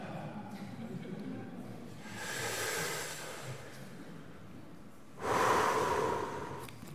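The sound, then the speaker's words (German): Two long, audible breaths are drawn deeply through the nose as a spiritual breathing exercise while holding a Bible. The second breath is louder and sharper than the first. “dann soll man diese geistliche Übung machen, tief einatmen, steht hier. Atme tief ein währenddessen du die Bibel hältst.”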